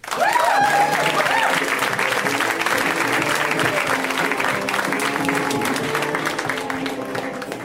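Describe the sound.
Audience applause welcomes a comedian to the stage at a comedy show, a dense, loud, steady wash of clapping that holds for the whole stretch and eases off only slightly toward the end.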